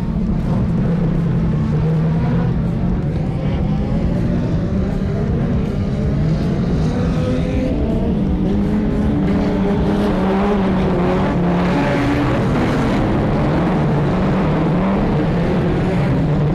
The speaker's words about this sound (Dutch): De ronde wordt gereden, de groene vlag gaat en dat betekent let's go of we go!